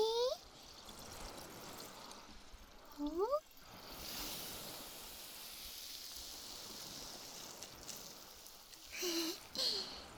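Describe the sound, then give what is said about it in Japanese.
Fizzy carbonated water is poured onto a towel, giving a soft, steady trickling hiss that runs throughout and swells briefly a few times. “シュワシュワ炭酸水をこのタオルに、”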